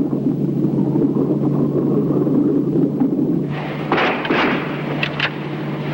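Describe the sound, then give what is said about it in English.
Gunfire from a boat's bow aimed at swimmers, with bullets striking the water. A steady low engine drone runs throughout, then a few sharp, loud bursts break in during the last couple of seconds. “Bullets strike the water just feet from the swimmers.”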